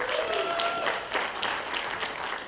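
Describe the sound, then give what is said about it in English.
Audience applause at a church service, with a steady wash of many hands clapping that holds evenly throughout. “Can we give it up for everyone online today?”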